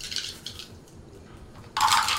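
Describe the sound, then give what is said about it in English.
Two six-sided dice are rolled on a table during a tabletop fantasy role-playing game, giving a faint clatter followed by a louder, brief rattling burst. “Roll me damage. So that would be 2 six-sided dice plus 6.”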